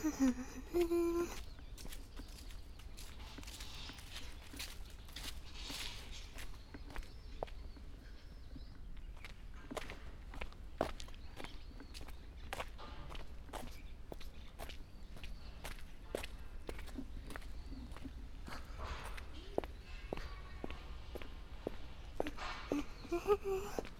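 Footsteps on a walk: many faint, irregular steps tap along at a casual pace over a soft, continuous background.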